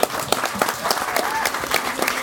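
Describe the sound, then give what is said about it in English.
An audience at a live stage event applauds the author of a book on 4AD Records: a dense, steady wash of many hands clapping, fairly loud and unbroken from start to finish. “he felt a bit reluctant to come on stage, but I think we should give him a big round of applause, because he's done a wonderful job.”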